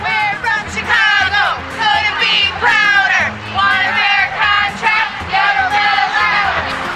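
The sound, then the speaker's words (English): Striking teachers chant outside the Walt Disney Magnet School, an elementary school on Chicago's north side. A loud crowd repeats shouted phrases in a steady, rhythmic cadence. “Here's the sound of teachers outside the Walt Disney Magnet School, an elementary school on Chicago's north side.”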